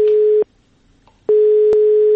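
A telephone ringback tone plays as a call is placed. It is a steady, loud, pure beep that cuts off, followed by a short silence and a second long beep that runs to the end, with no talking.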